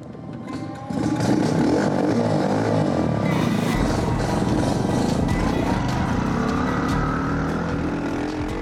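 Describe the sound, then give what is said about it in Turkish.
A custom-built farm motorcycle engine runs on a test drive, a loud, steady roar that starts after about a second of quieter sound and carries on without a break to the end. “bir zombi kıyameti motosikletiyle Birinci Dünya Savaşı Alman motosikleti arasında bir şey. Her şey fonksiyonel, her şey gerekli. Bu harika. Mükemmel. Evet, sanırım test sürüşü yapma zamanı geldi.”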